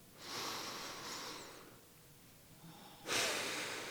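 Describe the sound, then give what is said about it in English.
A deep breath: two long, airy breath sounds, the second louder and more forceful, separated by a quiet pause, with no talk. “let's take a moment right now and take a deep breath.”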